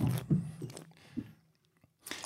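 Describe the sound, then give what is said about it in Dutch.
Soft mouth sounds of someone taking a sip of wine, with a few faint wet gulps and smacks early on. They fade into near quiet, and a brief rustle comes at the end. “Ik neem meteen nog een slokje, zei het al. Nou, dan doe ik dat ook.”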